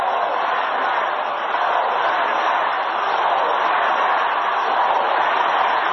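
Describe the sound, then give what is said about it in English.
Crowd noise at a John Edwards rally in Grand Rapids, Michigan, as the audience shouts over his speech: a loud, steady, unbroken roar of many voices with no distinct individual beats. “Well, the crowd's not going to let him continue. They're shouting Obama.”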